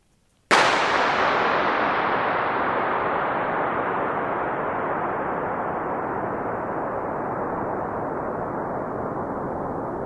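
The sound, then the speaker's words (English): A single gunshot inside a huge concrete underground oil storage tank set in a hillside: one sharp loud crack followed by an extremely long, smooth reverberant tail that fades slowly over about ten seconds. “The sound is a gun going off in an oil storage tank, right? Yeah, it's just a huge concrete vault.”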